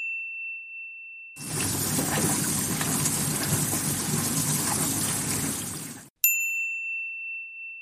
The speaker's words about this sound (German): Das zweite Geräusch war meine Spülmaschine, in der das Geschirr gespült wird.